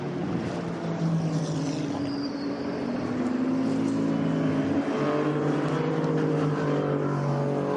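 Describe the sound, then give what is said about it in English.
Race car engines through the Porsche Curves at the Le Mans circuit during a three-hour race. The engine drone is continuous and loud, with whining tones that shift in pitch as the cars pass. No voices are heard. “as they come through Porsche curves at the moment.”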